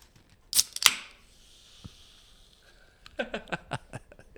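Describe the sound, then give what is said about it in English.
Opening a bottle of sparkling wine: a couple of quick sharp snaps, then a long soft hiss of escaping fizz that gradually fades, followed by a cluster of light clicks and rattles. “Before we do that, let me crack open my bubbly.”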